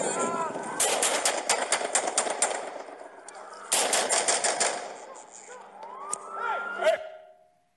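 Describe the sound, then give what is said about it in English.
Rapid bursts of gunfire erupt in two dense clusters as police confront a man with a gun, with shouting voices around and after the shots before everything fades out. “Shots fired.”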